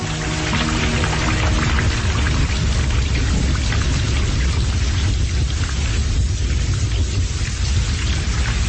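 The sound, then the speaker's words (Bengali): Heavy rain pours down in a loud, continuous hiss as thunder rumbles low and deep from a lightning strike nearby, with no break in the downpour. “আচমকা বিদ্যুৎ ঝলকের সঙ্গে কাছাকাছি কোথাও বাজ পড়ল। সেই সঙ্গে ফের চেপে নামল বৃষ্টি।”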